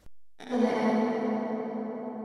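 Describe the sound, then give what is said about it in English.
A vocal processed with a long-tail reverb set fully wet and reversed, heard as a brief blip followed by a smooth, low harmonic drone that swells in and then slowly fades away. “Now add a reverb with a long tail onto it and make sure the wet is all the way up to 100%. Now reverse the vocal by pressing R on your keyboard.”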